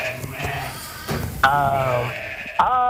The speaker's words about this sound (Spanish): las ovejas que están en sueltas, están en una zona cercada